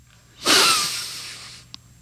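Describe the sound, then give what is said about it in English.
A single long breath drawn through the nose, an airy hiss that swells sharply, then tapers off over about a second, followed by a tiny click in otherwise quiet air. “Listen to my nose breathe.”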